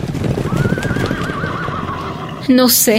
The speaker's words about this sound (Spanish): ¿No oyes? ¿No escuchas a lo lejos un galope de caballos?